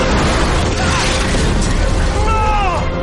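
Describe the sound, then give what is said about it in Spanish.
Loud, continuous booming and rumbling as enormous fireballs rain from the sky onto a town's inhabitants in a horror thriller film, a dense roar with crashing impacts throughout. “Del cielo comienzan a caer enormes bolas de fuego sobre los habitantes de Haven.”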